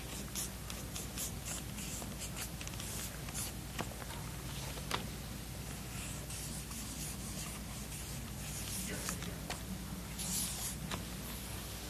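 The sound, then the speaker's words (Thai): Writing on a board, Chinese characters and English words, gives repeated scratchy strokes with occasional sharp taps over a constant low hum, no voices. “หลวงปู่เขียนกระดานเป็นภาษาจีนในภาษาอังกฤษว่า My Consciousness”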